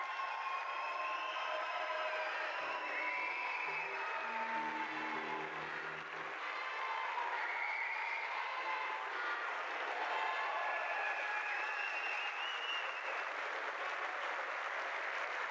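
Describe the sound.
Sustained audience applause greeting a performer, a dense, steady wash of clapping that holds at an even loudness throughout.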